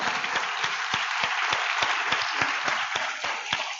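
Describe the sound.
Sustained applause from a crowd for the production team, dense steady clapping holding at an even level throughout.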